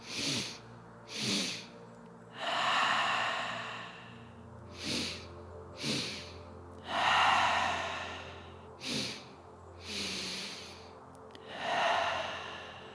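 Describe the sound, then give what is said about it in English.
Slow breathing during a guided breathing exercise: short inhales through the nose alternate with long, airy, sighing exhales out of the mouth, three unhurried cycles, soft and close. “And then a long exhale out of the mouth. A few more times with me at your own pace. Let's do this together.”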